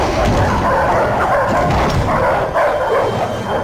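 Two attack dogs bark in a maze, a dense, loud, continuous volley of overlapping barks and yips with no clear gaps between them.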